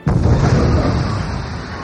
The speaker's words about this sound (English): A concussion missile exploded toward the Jedi pilot's ship.